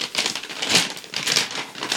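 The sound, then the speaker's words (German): Paper crinkles and rustles as a gift wrapped in paper and a lot of sticky tape is torn open. The crackling is continuous, fairly loud and uneven, with no talk over it. “Pack es doch einfach aus und quatsch nicht so viel. Nee, du. Wow, viel Tesafilm.”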